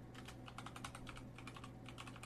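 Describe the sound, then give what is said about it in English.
Rapid typing on a computer keyboard: many quick, crisp keystrokes in a steady, uneven run, fairly quiet, over a low constant hum. “I'm typing it literally as they're doing this.”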